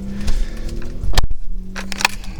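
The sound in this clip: A car door shuts with a solid thump as someone gets into a car on a hot day. A low, steady engine or traffic hum runs underneath throughout.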